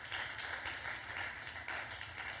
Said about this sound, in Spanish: Dale una ofrenda de palmas al Dios de la gloria.